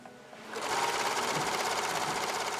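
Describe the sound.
A sewing machine stitches bags made from used animal feed bags. After a short, quieter start, it runs as a steady, fast, even whir to the end.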